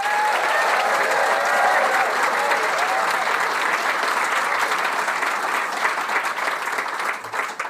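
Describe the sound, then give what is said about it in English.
An audience at an evening event applauds to welcome a guest onstage, with dense, steady clapping that holds at an even loudness for the whole stretch before thinning slightly at the end. “Please put your hands together and join me in a warm welcome for the one and only Nicole Fahey.”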